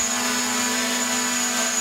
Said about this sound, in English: drone umbrellas. Oh, that's convenient. That's the actual sound of the umbrella itself.